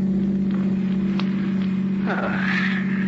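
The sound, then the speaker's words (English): A steady low engine hum from a car driving down the coast road toward New York runs throughout, with a voice briefly heard over it near the end. “And later, as you're driving Neil down the coast toward New York.”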